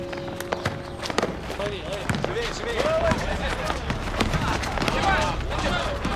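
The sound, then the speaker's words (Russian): During a ball game, a ball bounces again and again in quick, uneven thuds, mixed with scuffling movement and voices talking over it. “Все играют в мяч.”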